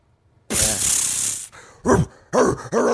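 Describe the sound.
A man imitates dog noises while someone is hit with water from a super soaker. A long, loud hissing burst comes first, followed by a few short, gruff barking yelps.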